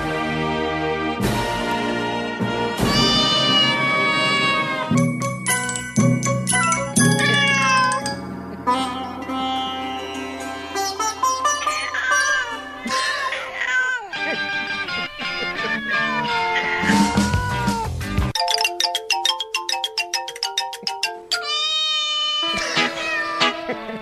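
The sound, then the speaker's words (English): Cats meowing in a long run of loud, tonal meows. The calls vary in pitch and length, some overlap, and they follow one another almost without pause. “Cats from around the world.”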